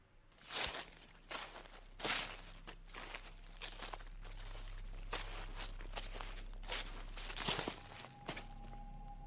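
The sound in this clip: Footsteps rustle through a garden at night, forming a slow, irregular series of soft brushing, crunching steps over a faint low hum.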